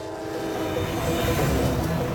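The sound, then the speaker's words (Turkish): A heavy freight train hauling ten thousand tons rolls downhill, with a steady, dense low rumble of wheels and a faint sustained tonal whine above it. “Bu tren bizi tepeden aşağı doğru ittirdiği için hızı kontrol etmem gerekiyor.”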